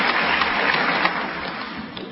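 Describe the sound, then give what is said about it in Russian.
A theatre audience clapping after a show: a dense, continuous patter of many hands at a steady level. “Но люди в зале хлопали в ладоши. Они, видно, считали, что это был очень хороший спектакль.”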